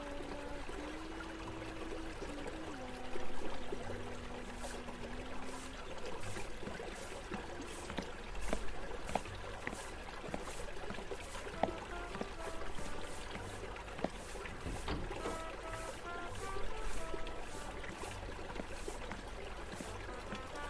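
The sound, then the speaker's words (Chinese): Hot water runs for a bath in a faint, continuous trickling stream, dotted with scattered splashy drips throughout. “我帮你放热水，你现在乖乖去拿你的换洗衣物哦。”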